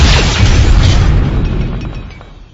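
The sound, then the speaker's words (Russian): Tank cannon firing: one loud, deep boom that rolls into a long rumbling decay and slowly fades. “И как бальзам на душу был грохот танковой пушки.”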